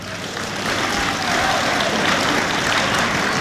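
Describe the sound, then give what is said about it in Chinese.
Audience applause at a stage comedy show, a dense, steady wash of clapping that holds evenly from start to finish. “这掌声不热烈，怎么唱着啊？ 我这掌声还不热烈呢。”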